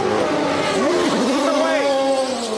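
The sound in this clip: A race car engine revs as the car pulls out of its pit stop after fuel and tires. The engine's wavering, rising whine runs steadily under a man's commentary.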